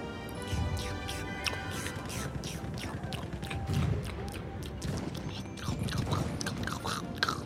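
People chew and bite into food during a tasting, making soft, repeated crunching and chewing sounds throughout at low volume.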